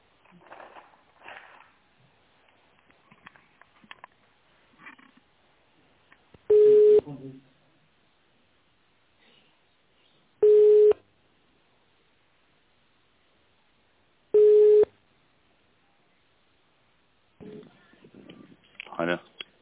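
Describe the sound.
Three loud, steady telephone tones sound at even intervals while a call is transferred. Each is an identical mid-pitched beep of about a second. Faint muffled voices and rustling come before and after.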